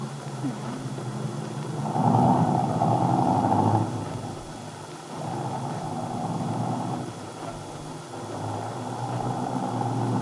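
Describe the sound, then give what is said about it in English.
A car engine runs with a steady low hum and drone. The sound swells in three broad stretches, with slightly quieter dips between them, over a constant background rumble. “this motor really hums”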